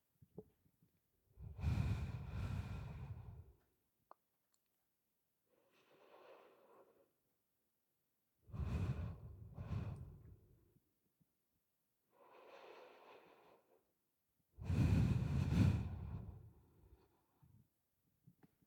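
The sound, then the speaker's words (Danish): Three deep breaths taken during a guided relaxation exercise, each a loud, breathy inhale followed by a softer, fainter exhale, evenly spaced with quiet gaps between them and no talking. “Og så tag øh, tre gode, dybe indåndinger.”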